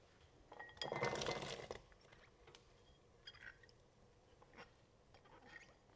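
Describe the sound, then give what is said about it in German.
Vegetables are poured from a bowl into a pot of boiling water: a short clattering rush of pieces with light clinks, followed by a few faint, scattered knocks. “So, das Wasser kocht. Ich schütte jetzt das Gemüse von der Schüssel in den Topf.”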